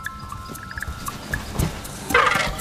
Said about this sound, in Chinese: 好了，我听到你叫了。 幼崽的警告声引来了他的妈妈。